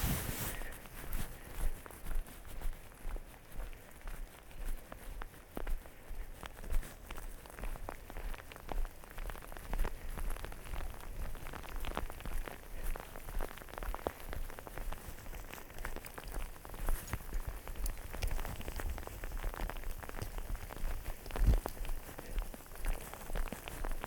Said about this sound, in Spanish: Vamos a acercarnos al lago, vamos a ponernos la capucha porque esto empieza a llover un poquito más intensamente.